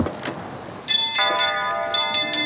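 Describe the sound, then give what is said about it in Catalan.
Bells ringing, with several clear metallic strikes whose tones ring on and overlap above a steady background noise. “És el so de les campanes.”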